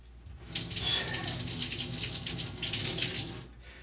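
Tap water running to rinse hair, a steady hissing flow that holds at an even level for a few seconds before easing off at the end.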